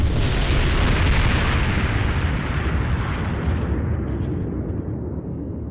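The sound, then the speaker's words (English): A starship explodes under weapons fire in a space battle: one loud, sustained, rumbling roar that starts at full force and slowly fades over several seconds as its hiss dies away, with no voices. “They've destroyed one Romulan vessel and two others have sustained moderate damage.”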